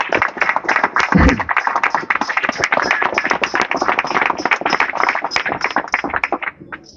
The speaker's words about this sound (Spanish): Un aplauso y un reconocimiento muy grande porque han caminado cada barrio al lado de los compañeros.